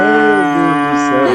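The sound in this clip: Cattle on a farm give a single loud, sustained moo, low and droning, filling the whole moment on its own.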